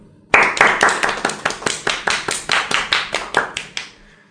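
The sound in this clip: One person claps for Juventus football club, a steady run of many sharp, evenly spaced hand claps that stop abruptly.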